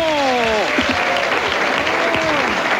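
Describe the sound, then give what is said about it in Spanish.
Applause from a crowd, with continuous dense clapping throughout and voices calling out over it, on a damaged tape recording. “Bueno, un aplauso, Tito.”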